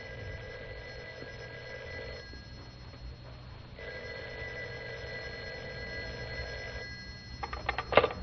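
A telephone rings again and again as someone keeps calling, a quiet bell-type ring sounding in two long bursts separated by a pause of about a second and a half, with no voices.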